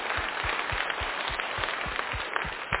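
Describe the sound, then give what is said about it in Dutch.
An audience gives the band a round of applause, with dense, steady clapping that fills the whole stretch. Regular low thuds run underneath it. “Ik wil natuurlijk nu ook even de band bedanken. Dus een applausje mag zeker wel eens welkom.”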